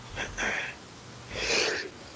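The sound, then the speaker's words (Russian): A person sneezes during a live radio conversation, producing two sharp, breathy bursts separated by a short pause. “Ой, прошу прощения, что-то у меня сегодня. Не думали, что будете так часто чихать в эфире.”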